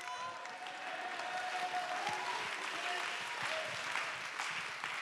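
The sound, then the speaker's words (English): Church audience clapping their hands and making noise in praise, a dense, steady wash of applause that holds evenly for the whole clip at a fairly soft level. “Somebody clap your hands and give him praise. Come on, make some noise here today.”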